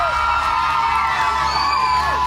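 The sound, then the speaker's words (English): Loud crowd cheering and shouting, with high whoops and children's voices, as a boy is brought onto a stage at a school event; a dense, steady roar holds throughout. “Can we get huge round of applause?”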